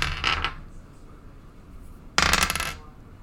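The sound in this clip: Dice, including a ten-sided die, rolled on a table during a tabletop role-playing game: two short, fairly faint clattering rattles separated by a quiet pause of well over a second, with no talk over them.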